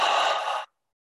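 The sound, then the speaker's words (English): A single soft breath from a guided breathing exercise of in through the nose and out through the mouth, heard as one airy hiss lasting under a second, then silence. “take a nice breath in through the nose and out through the mouth.”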